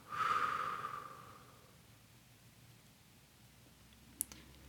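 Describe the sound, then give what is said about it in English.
A deep breath taken during a guided relaxation exercise, in through the nose and out through the mouth, heard as a single soft breathy rush that fades over about a second and a half, then quiet with a couple of small clicks. “Deep breath in through your nose and out through your mouth.”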